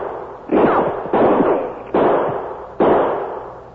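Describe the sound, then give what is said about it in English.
Gunshots in a radio drama, fired from behind a big cottonwood tree: four loud, sharp bangs at fairly even intervals, each with a short ringing decay, heard alone without talk. “The shots come behind that big cottonwood tree to the right.”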